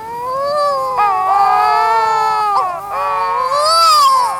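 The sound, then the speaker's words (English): Wedge-tailed shearwaters duetting on the ground, giving long, eerie wailing calls: loud, drawn-out, wavering cries like a crying infant, with the pitch sliding up and down and no other sounds. “wedge-tailed shearwaters sit facing one another on the ground and puff up their throats to perform long duets of eerie wailing”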